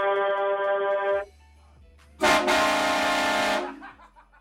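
A truck horn sounds as a trucker salute in two loud blasts, a steady tonal honk followed after a short pause by a harsher, brassier air-horn blast that cuts off sharply.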